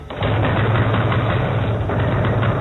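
A car engine that fails to start cranks with a continuous, rough, knocking churn over a low, pulsing rumble, steady from start to finish without catching.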